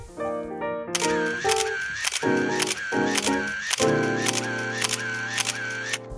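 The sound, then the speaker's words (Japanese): A camera shutter clicks while photographing freshly baked bread, a quick, regular series of crisp clicks over a steady tonal background. “写真を撮ります。このまま撮れるのかな？このまま撮ってみましょうか。”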